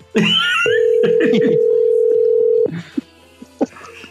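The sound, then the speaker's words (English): A steady, loud telephone dial tone holds for about two seconds as a voice talks over its start. A few short, sharp clicks follow once it stops. “I want to phone Jeff's mom.”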